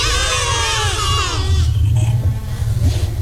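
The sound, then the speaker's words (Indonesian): A goat bleats once in a long, wavering, nasal cry lasting over a second, then gives way to a louder rumbling noise. “Suara kambing.”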